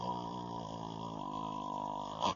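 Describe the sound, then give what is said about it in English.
A voice imitating snoring: a sustained, buzzing, throaty drone held for about two seconds, ending in a brief louder burst. “and start snoring or stop breathing altogether”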